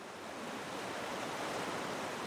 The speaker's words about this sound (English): Beside a rushing river below the walnut forests